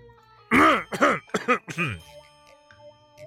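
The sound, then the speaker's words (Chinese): A man gives a dry cough, voiced by a narrator imitating the sound in a period drama story: four short, throaty, voiced bursts in quick succession, then quiet. “他干咳了一声。”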